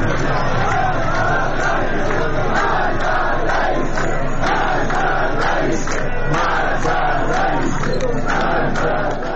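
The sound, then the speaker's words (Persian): A crowd of protesters in Tabriz chants slogans against the president and government: loud massed voices in a steady, rhythmic chant that continues without a break. “بر اساس گزارش رادیو فردا، معترضان در تبریز علیه رئیس جمهور و دولت شعار دادند.”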